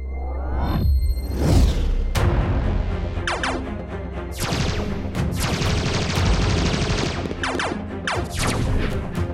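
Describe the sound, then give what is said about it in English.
Gunfire from a warship: a loud, dense barrage of sharp blasts and crashing bursts that follow one another almost without pause through the whole stretch. “Ockender warship, cease fire, cease fire. Stop shooting.”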